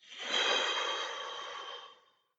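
One deep breath is slowly breathed out as an airy, breathy hiss that swells quickly, holds, then tapers away to silence, heard alone.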